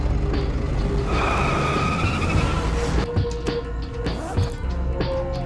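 A car accelerates with its tires skidding: a loud, sustained squeal of rubber over a roaring engine, then rougher engine bursts and revs as the squeal gives way. There are no voices.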